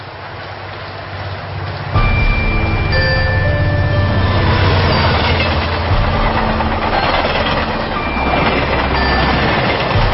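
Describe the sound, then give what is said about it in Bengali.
A train pulls out of a station: after a quieter opening, a loud engine rumble sets in at about two seconds and stays steady. Drawn-out tonal whines and hums sit above it. “আফা আপনারা উঠবেন না, train সাইড়া দিবে, এরপরে কিন্তু আর কোনো train নাই।”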